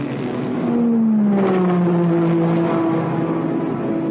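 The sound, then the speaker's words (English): The number one Ford race car, driven by Dan Gurney late in an endurance race, drones by with a loud, steady engine whine that slides lower in pitch as it goes. “Dan Gurney drives the number one Ford for his last shift before turning it over to A.J. Foyt, waiting in the pits, who is scheduled to finish the race.”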